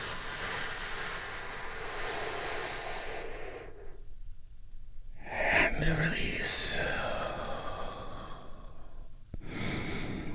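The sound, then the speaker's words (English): A slow, deep breath taken during a guided relaxation exercise: a long, airy inhale lasting several seconds, a brief quiet pause, then more soft breathy rushing. “Let's take a big, deep, healing breath right now. Here we go.”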